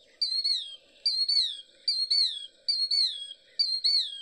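Killdeer calling: five shrill, high phrases repeat at a steady pace, each made of two notes that slide downward in pitch, with no other sounds.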